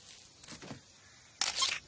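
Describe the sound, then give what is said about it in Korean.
Camera shutter click, made while children pretend to take photos: a couple of faint ticks, then one louder, crisp mechanical snap with a short bright rattle. “와, 카메라, 카메라, 카메라. 어? 카메라야. 찰칵. 어, 되잖아.”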